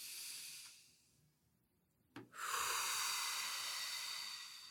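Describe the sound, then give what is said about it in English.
Deep inhaling and exhaling during a guided meditation: a soft airy breath fades away, a quiet pause follows, then a long, steady, fuller breath of rushing air carries on to the end. “We can start this meditation by just taking a couple of deep breaths and just inhale and exhale. And we can do a couple more. Inhale.”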